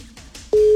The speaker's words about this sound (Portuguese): Primeiro toque